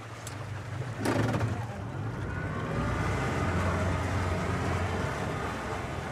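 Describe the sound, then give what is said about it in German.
A strong outboard motor pulls a boat backwards out onto a river in the Kurdish region of northern Syria. It makes a steady, low droning engine rumble, with a brief louder clunk early on. “Ein starker Außenbordmotor zieht das Boot rückwärts auf den Fluss hinaus.”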